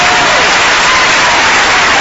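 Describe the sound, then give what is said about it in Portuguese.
A church audience clapping their hands in praise, a loud, dense wash of many hands mixed with general crowd noise. “Palmas para Jesus, meus irmãos, palmas para Jesus. Amém. Pode louvar a Deus com as palmas, meus irmãos, louva a Deus com as palmas.”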